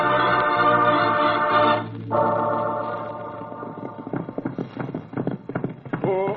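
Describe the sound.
Horses clip-clopping as riders set off: after a sustained musical passage fades, many quick, uneven hoofbeats patter steadily, loud and clear with no talk over them.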